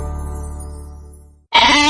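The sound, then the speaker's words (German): A Merino sheep bleats in one long, low, strongly harmonic call that slowly fades over about a second and a half, then a voice cuts in abruptly. “Ich bin ein australisches Merino-Schaf.”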